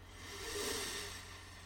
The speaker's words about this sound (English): we're going to take a couple deep breaths in and out through our nose. If you need to do it through your mouth, that's okay, but nose is even better. So, all right, let's breathe in.